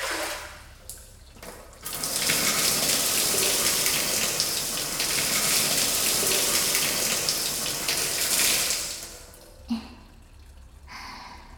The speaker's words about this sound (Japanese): 最後にしっかりと髪をお湯で流します。